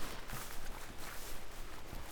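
Footsteps swish through tall grass on an open meadow, a steady rustling tread of brushing stems that runs through the whole moment without talk.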